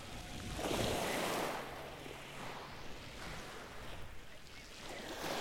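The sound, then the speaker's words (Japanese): Calm, gentle sea waves washing at the shore on a warm, mild day, a faint steady rush with soft swells and light wind noise, no voices. “なんか久々に海を見に来たら、海入れそうなくらいあったかいし穏やかだし、”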